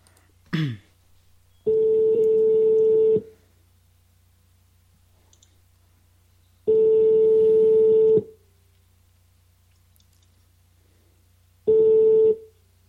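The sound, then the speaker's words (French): Ringback tone of an outgoing telephone call: three long, steady, mid-pitched tones separated by silence, preceded by a brief click. “On appelle Charlélie donc animateur principal dans l'émission Sacré Show. J'espère qu'il répond parce que c'est vrai comme on appelle en privé.”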